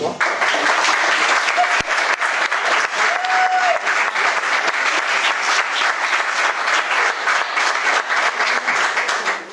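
An audience at a live comedy show in Angoulême applauds loudly to welcome a performer onto the stage, with sustained, steady clapping from a large crowd that continues for several seconds.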